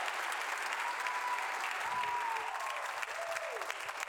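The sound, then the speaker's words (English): An audience applauds to welcome speakers onto a stage, steady dense clapping that holds at an even level throughout. “Could you give them a hand? Come on, let's welcome these guys.”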